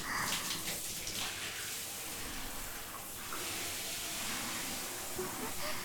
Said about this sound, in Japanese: 冷感シャンプーの後ってお湯が熱く感じやすいみたいだから、いつもより少しぬるめのお湯で流してるんです。